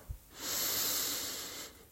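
Slow inhalation during a calm guided breathing exercise: a soft, even airy hiss lasting just over a second, faint and alone, fading at the end.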